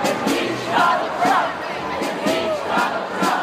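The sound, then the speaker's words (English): A street crowd chants to impeach Donald Trump, many voices joined in a loud, repeating rhythmic call. Regular shouted pulses recur every half second or so over a constant crowd roar. “There was this great moment when the acoustics on the block aligned so that many people chanting impeach Donald Trump rose through the streets in this riot of noise.”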